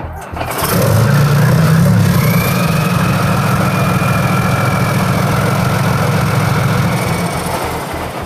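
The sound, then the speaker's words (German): A Leopard 2A4 tank's 1500 hp engine fires up on the 55-tonne vehicle at a tank driving school, settling into a loud, deep, steady rumble with a low rhythmic pulsing throughout. “Leopard 2A4, 1500 PS, 55 Tonnen.”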